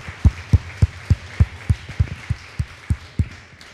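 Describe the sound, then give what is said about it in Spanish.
A church audience clapping in a steady, rhythmic beat: many sharp, low-thudding claps at an even pace, moderately loud, with no talk. “Denle un fuerte aplauso al que merece toda gloria y honra.”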